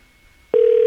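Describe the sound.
Telephone ringing during an outgoing call: near-silence, then a single steady, even tone that starts halfway through and holds unbroken to the end.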